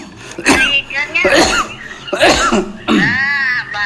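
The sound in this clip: A person coughing in a few rough, throaty bursts, spaced roughly evenly, with voiced, raspy tones between the sharp attacks.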